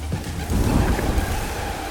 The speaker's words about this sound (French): Il faut vous le dire, le bruit. C'est un bruit de vent.